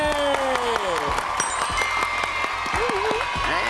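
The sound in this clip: Applause for Team Megadina at a children's media award ceremony: many scattered claps sound throughout, with a voice carrying over the clapping.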